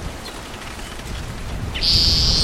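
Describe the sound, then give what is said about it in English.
Bird song along a creek in Elmore County, Idaho, on a windy day: a single high, thin, sustained whistled note enters near the end over steady rushing wind noise. “very different song from the other bird.”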